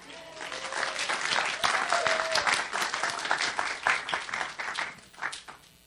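Warm audience applause welcomes a woman about to read from her small book. The clapping swells quickly, holds for a few seconds, then tapers off unevenly in scattered bursts.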